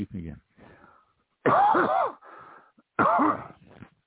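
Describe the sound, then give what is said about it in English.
Coughing blamed on lisinopril medication: two loud, rough, voiced cough bursts about a second and a half apart, with quieter throaty vocal sounds before and between them. “catching my throat. I'm taking lisinopril. For any of you out there who know what that is, it's for my diabetes. But well, I'll tell you what, it gives you a cough.”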